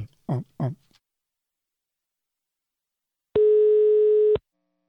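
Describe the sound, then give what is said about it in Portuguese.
A telephone tone sounds as a call is placed: one steady, mid-pitched tone lasting about a second, alone, after a brief burst of speech at the start and a long silence. “Agora eu vou ligar.”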